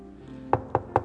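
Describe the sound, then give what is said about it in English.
Knocking on a door: three sharp, evenly spaced knocks about a fifth of a second apart, over a faint steady low hum. “And Peter keeps on knocking.”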